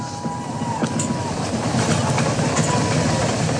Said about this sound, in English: Past max Q, the RS-25's throttling back up to 109% thrust capacity.